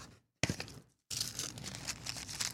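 Cardboard mail packaging that protects a card being opened up close, with soft crinkling, rustling and scraping in two stretches split by a short silence. The sound is fairly quiet and has no talking over it.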